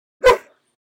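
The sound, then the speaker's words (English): A dog barks once: a single sharp, loud bark alone that cuts off and fades within half a second. “I apologize. I don't know why he's barking. There's no reason for him to be barking right now. I have no idea why he's barking.”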